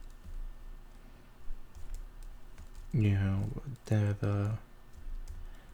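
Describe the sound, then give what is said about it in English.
Typing on a computer keyboard, with faint, rapid key clicks running throughout and a voice briefly talking over them near the middle. “What else should I type?”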